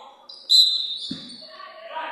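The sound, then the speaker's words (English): A basketball is dribbled by a player in a girls' high school game just before halftime, with a dull bounce standing out among voices. “She's going to, dribble three times and heave it.”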